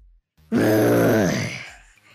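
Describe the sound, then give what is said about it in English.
A child imitating a T-Rex dinosaur with one loud, strained, growling roar lasting about a second that trails off, with brief quiet before and after. “Do your best impression of a dinosaur. A T-Rex. How does a T-Rex sound?”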